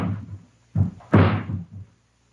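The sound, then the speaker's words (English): A ladder being set against the side of a house gives a few heavy wooden thumps and clunks, the loudest coming last, each followed by a dull decaying rumble. “Mary, someone's putting a ladder against the side of the house. They're going to climb in one of the windows.”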